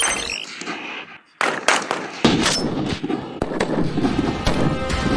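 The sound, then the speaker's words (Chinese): Sharp, loud shots from Type 191 rifles fired at a shooting range in wind, snow, fog and low temperature, many cracks in quick irregular succession over a steady rumbling background. “风雪、大雾、低温，但191式步枪性能硬核，弹道精准，能颠勺的手扣起扳机来照样弹无虚发。”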